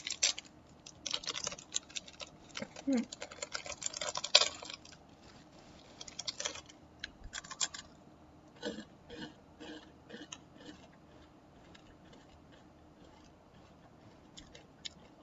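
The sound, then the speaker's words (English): Purple rice Taiwanese crackers are bitten and chewed, giving many dry, crisp crunches in dense bursts at first that grow sparser and fainter as the chewing goes on. “Okay, so these are the purple rice crackers. Let's see what it tastes like.”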